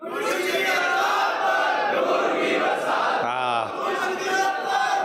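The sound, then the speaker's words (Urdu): A large crowd at a religious gathering chants a slogan in unison, a dense and loud mass of voices that carries through the whole clip, with a single voice briefly standing out near the end. “ذرا ایک بار بھی نعرہ لگانا۔”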